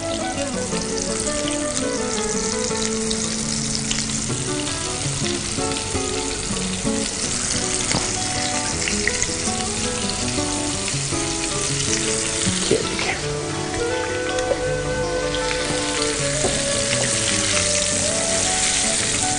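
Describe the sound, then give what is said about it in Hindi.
Feta cheese coated in cornflour frying in hot oil: a loud, dense, continuous sizzle with constant crackling and popping that stays at an even level for the whole of its roughly twenty seconds. “जैसे जैसे fry होता जा रहा है, और ये देखिए फैटा चीज जो है वो हमारी फ्राई हो चुकी है।”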